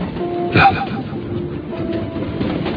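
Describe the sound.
A train carriage rolls on rails with a steady, dense rumble, a faint tonal hum running through it, and one brief louder knock early on.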